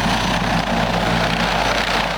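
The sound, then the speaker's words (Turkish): A police Gökbey helicopter flies with a constant, dense rotor and engine drone, a low steady hum that stays even and fairly loud throughout. “Gökbey helikopteri ve dikey kalkabilen VTOL İHA'lar.”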